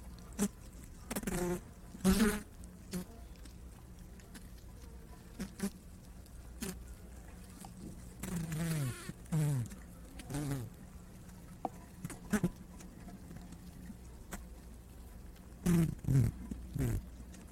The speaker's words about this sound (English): This is the sound of the honeybee.